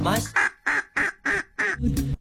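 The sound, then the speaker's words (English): Five duck quacks in an even, regular rhythm, each a short, loud, nasal burst separated by brief gaps, standing in for words in a song. “How many quacks was that? That was five quacks. I think that might be a first, five quacks.”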